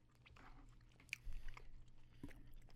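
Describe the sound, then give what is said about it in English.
Someone biting into a chocolate bomb: one brief crisp crunch, then faint chewing, quiet overall. “Ferrero Rocher binge, and now here I am literally biting into a chocolate bomb.”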